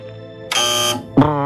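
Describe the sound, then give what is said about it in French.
A quiz show wrong-answer buzzer blares a harsh, loud buzz for about half a second, followed by a wavering electronic tone. “Généralement, ce son... C'est le son de la mauvaise réponse.”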